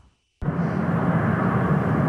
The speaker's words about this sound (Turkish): Liderleri taşıyan uçaklar tek tek Ankara'ya indi.